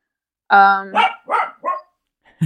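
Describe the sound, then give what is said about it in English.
A dog barks a few times in short, loud bursts, beginning with a longer tonal yelp and followed by quicker, rougher barks, alone without talk. “ah, my dog. Done with the bone. Yeah, she's taking a break. She's taking a barking break.”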